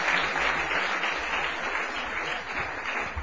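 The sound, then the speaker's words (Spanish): Applause from a church audience during a sermon: dense, steady clapping that holds at an even, moderate level for the whole stretch, with no clear pauses. “usted le da una alabanza a Dios y un aplauso”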